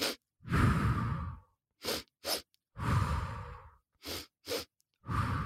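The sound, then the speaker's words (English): Breathing in through the nose twice and out once through the mouth: long, airy exhales alternate with pairs of quick, sharp nasal sniffs, giving three exhales and two pairs of sniffs, with silence between them. “I will breathe in two strokes through my nose, out one stroke through my mouth. So it sounds like this.”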